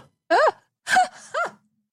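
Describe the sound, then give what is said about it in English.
A vocal gasp of reaction comes in three short voiced bursts, each arching up and down in pitch with a breathy, sigh-like quality, separated by brief silences. “We got a gasp.”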